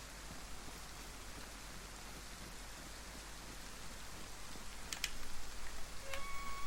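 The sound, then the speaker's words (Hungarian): Heavy rain pours down in a video game, a soft, steady hiss of downpour that grows slightly denser toward the end. “visszamegyek a menedékbe, ha már így elkezdett zuhogni.”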